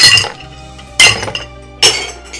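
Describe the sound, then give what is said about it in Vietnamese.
Objects being smashed, like a bowl breaking: three sharp, loud crashes of glass or crockery, evenly spaced, each followed by a bright ringing clatter that fades before the next impact. “Nó chỉ muốn nghe tiếng động. Tiếng động gì? Nó chỉ muốn nghe tiếng đồ vật bị đập bể.”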